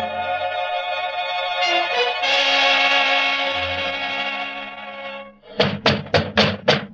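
Five heavy, evenly spaced thuds of police pounding on a door in a radio drama about Harry Lime on the Riviera, loud and resonant, following a long sustained tonal passage.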